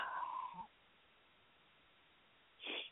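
A person yawns, a drawn-out, wavering vocal sound at the start that trails off into quiet. A short second vocal burst follows near the end.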